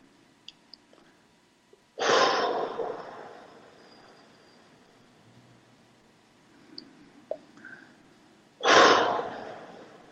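Two loud, deep breaths during a guided breathing exercise, each a broad rushing burst that swells quickly and then trails off, separated by several seconds of near quiet with a few faint clicks.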